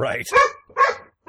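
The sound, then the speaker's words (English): Dogs barking excitedly in a few sharp, loud bursts, mixed with a person speaking over them. “Your dog seems very happy about that. That's the sound of my dogs losing their shit.”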